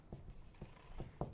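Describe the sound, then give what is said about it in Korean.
A teacher writes on a board in a classroom: several faint, short tapping strokes spaced unevenly, soft and dry, with no talk over them. “선생님은 그냥 두 가지 써볼게요.”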